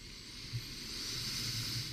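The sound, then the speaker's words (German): A slow, deep inhalation during a guided forgiveness meditation: a soft, even, airy hiss that lasts about two seconds, quiet and heard alone. “Und vielleicht magst du deine Hände nochmal auf dein Herz legen Ganz tief einatmen.”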